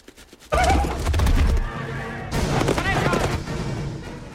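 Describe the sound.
Horses ridden by a group of Picts along a forest track, with loud whinnying over heavy hoofbeats that begin abruptly and continue, followed later by a second burst of neighing.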